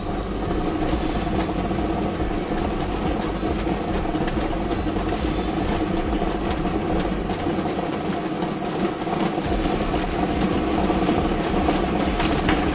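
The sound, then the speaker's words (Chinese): A lottery ball drawing machine running, with a steady whirring rumble and a dense, continuous clatter that stays at an even level throughout, with no talk. “马上为您启动摇奖机。我们摇奖机呢已经正式启动了”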